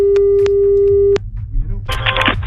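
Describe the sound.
A single long, steady ringback tone sounds on an outgoing phone call, holding for over a second before cutting off, followed by faint line noise and a short burst of hiss.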